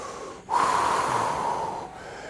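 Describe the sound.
A deep exhale taken during a stretching exercise, one long, steady breath of airy rushing noise that starts abruptly and holds evenly for about a second and a half before stopping.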